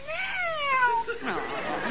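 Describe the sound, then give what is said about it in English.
A cat meowing, introduced to a pet parrot: two drawn-out, tonal meows, the first sliding downward in pitch and the second following shortly after, fairly loud. “Oh, pretty cat. Oh, pretty cat.”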